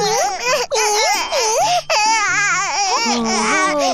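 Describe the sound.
A young child cries in loud, wavering, high-pitched wails that rise and fall, broken by a couple of brief pauses for breath.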